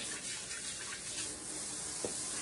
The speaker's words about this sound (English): Wash my hands.